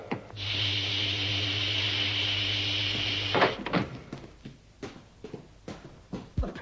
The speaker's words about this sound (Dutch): Nu kan de binnendeur open.